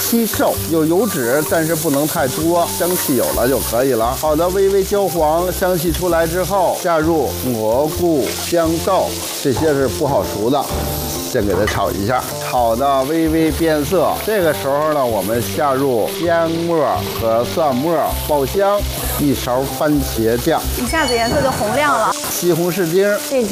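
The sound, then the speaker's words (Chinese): Minced pork frying in a small amount of oil for a sauce gives a continuous, loud sizzle that runs steadily through the whole stretch. “开火准备炒咱们的万能酱，下一点点底油，不用特别多，放一点点猪肉馅儿。”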